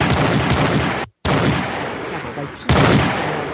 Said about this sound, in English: Whoops. Ow! He just shot Wasteland.